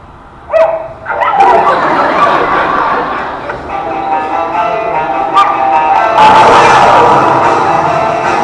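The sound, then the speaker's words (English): A small dog barks and yips, with a sharp bark at the start and more yapping bursts over steady background noise, growing loudest near the end. “there you are, little dog. The distraction.”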